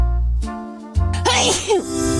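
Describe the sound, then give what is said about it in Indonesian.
A single human sneeze follows steady sustained tones: a voiced intake breaks into a sharp, breathy, noisy burst that fades quickly. “Bersin adalah respon tubuh yang kuat untuk membersihkan saluran nafas dari iritasi.”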